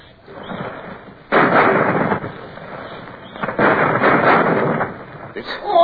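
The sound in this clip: Ship's cannon firing from a numbered gun, an abrupt loud blast that swells into a sustained roaring rumble, with a second surge a couple of seconds later.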